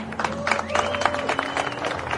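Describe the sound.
Audience applause for the junior winner at a motorsport race prize-giving, a steady, dense wash of clapping that holds an even level from start to finish.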